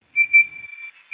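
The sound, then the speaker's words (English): A night parrot's call: a clear, high, pure whistled note held for most of a second, swelling near its start, then a short pause and a brief second whistle of the same pitch. “That's the bird call that made conservationist Steve Murphy sit bolt upright one morning”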